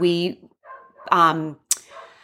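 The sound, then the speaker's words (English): Small dog barking in a few sharp, high yaps with short gaps, the last one clipped and abrupt. The dog is a little adopted one, nearly two years old, barking alone with no voices. “So Lincoln has decided to make an appearance again on the show today, and his little dog syndrome is in full force today.”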